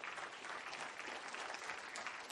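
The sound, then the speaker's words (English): Audience applause during a religious talk: a quiet, dense patter of many hands clapping that stays steady and continuous throughout, with no voices over it. “Come on, give him a good clap.”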